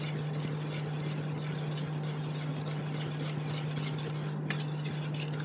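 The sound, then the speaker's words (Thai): Oil being stirred into a gel in a container to make a cream, a continuous soft swishing and scraping over a steady low hum. “ออยล์จะเทง่ายสุดก็เลยเติมลงไปในส่วนที่1แบบนี้นะคะแล้วก็กวนนะคะ”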